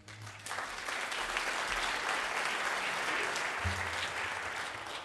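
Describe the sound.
An audience applauds to welcome a speaker at a debate, a steady, full wash of clapping that holds at an even level for several seconds without voices.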